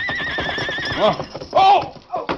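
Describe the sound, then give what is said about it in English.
A horse neighs and whinnies in a loud, wavering high cry while hooves clip-clop underneath, followed by further short whinnies and snorts from the big paint horse racing across open plains. “The big paint horse raced over the plains at a gallop.”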